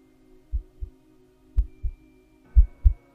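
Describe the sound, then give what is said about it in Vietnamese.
Two hearts thump in the night as a heartbeat effect: three low, muffled double beats in an even rhythm over a faint steady hum. “Trong khoảnh khắc, tim của hai người đập bình bịch trong đêm.”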